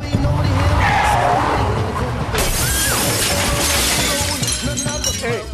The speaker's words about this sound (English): Grinning madly, Walter crashes his car into the Chess Records offices.